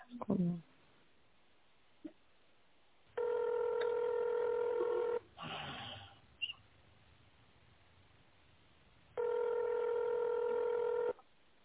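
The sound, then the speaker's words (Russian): Telephone keypad tones during a call to a company line: two long, steady dialing tones of equal length, separated by a pause with a few short, faint noises between them. “Если вы знаете номер сотрудника, наберите его в тоновом режиме.”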